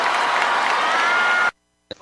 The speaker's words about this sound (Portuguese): uma salva de palmas aí